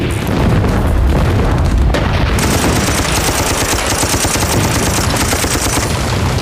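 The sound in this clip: Heavy gunfire in a battle to defend a walled city: dense, rapid bursts of shots and deep booms in a loud, unbroken barrage, with no voices.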